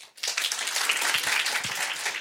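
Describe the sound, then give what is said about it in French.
Audience applause given as a vote by a French-speaking group, breaking in abruptly after a brief pause and then holding as a dense, steady wash of clapping. “Excusez-moi, par applaudissement, ça se fait pas ou pas?”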